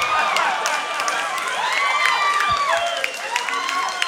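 Applause and cheering from a live audience: a dense, steady wash of clapping with high whoops and shouts riding on top throughout.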